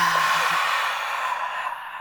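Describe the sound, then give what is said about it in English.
A slow breath being released, heard as a soft, airy exhale that runs steadily for about two seconds and fades slightly toward the end. “Let's take a breath before we start. Breathing in and releasing.”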